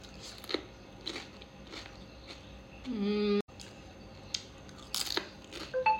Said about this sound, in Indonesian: Bener-bener enak. Keripik ketumbar. Nyam.